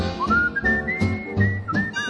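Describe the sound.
A cheerful whistled melody from a Polish song about loving singing and whistling, with a clear, wavering tone that rises and falls across several phrases over a fuller low accompaniment.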